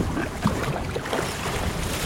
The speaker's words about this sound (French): C'est pas le plus agréable parce que là, le vent souffle un peu.